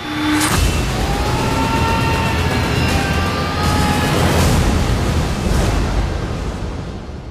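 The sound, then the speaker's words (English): Booming film-trailer sound design from 300: Rise of an Empire, a loud, dense wall of rumbling and whooshing effects with scattered high tones, heavy throughout before easing slightly at the end. “Alright, so that was the trailer for 300 Rise of an Empire.”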